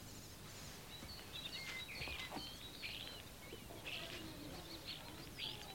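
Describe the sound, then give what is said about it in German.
Starlings chirp in a garden of white-blossomed cherry trees: many faint, thin, high chirps and short whistles scattered across a steady background hiss, with no voices. “Die Stare zwitschern.”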